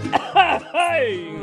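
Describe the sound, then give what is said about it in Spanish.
Coughing from a Spanish-speaking man: a few short, voiced, throaty coughs, the last drawn out with a falling tone, loud and close with no other sound. “Pero yo toso.”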